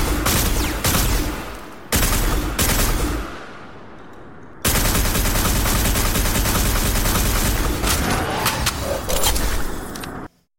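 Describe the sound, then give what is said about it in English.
Loud automatic gunfire from a weapon in a video game, dense rapid bursts broken by brief pauses for reloading, the reload noises raised to about the level of the shots. “Okay, yeah, that reload was wild. And again, I've amplified the reloads a little bit to bring them up to the same sound level as the actual firing.”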